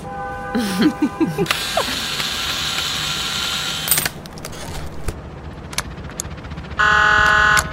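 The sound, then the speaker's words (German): A screwdriver works on a maintenance panel with ratcheting mechanical clicks and gear-like rattles over a steady background, then a loud, even buzzing tone runs for about a second near the end. “Ich muss an das Wartungspanel ran. Hast du einen Schraubenzieher?”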